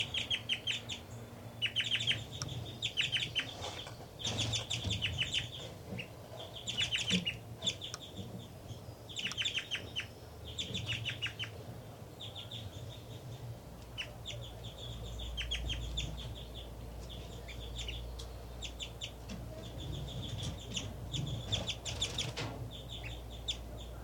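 An adult bird calls and sings while feeding nestlings at the nest, with many bright chirping notes in rapid bursts over a low background rumble.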